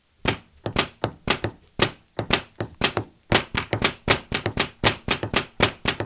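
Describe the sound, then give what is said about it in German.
Live drumming alternates between three-against-four and two-against-three polyrhythms, a long run of sharp, dry, thudding hits in an interlocking, uneven pattern, played alone without voices. “Ihr seid beim Nerd Domino und hier wird live für euch getrommelt”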